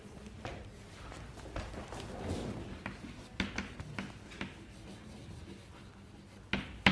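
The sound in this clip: Writing on a board during a mathematics lecture: soft scratchy strokes broken by a few sharp taps, quiet and irregular.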